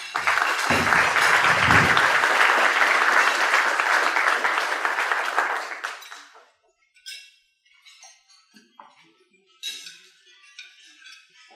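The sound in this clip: An audience claps to welcome a speaker. The steady, full applause lasts about six seconds, then dies away into near silence broken only by a few faint, scattered small noises.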